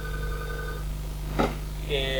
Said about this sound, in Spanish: Llamo de un teléfono a otro